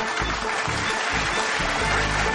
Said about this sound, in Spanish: Un aplauso para Jar Jar Binks.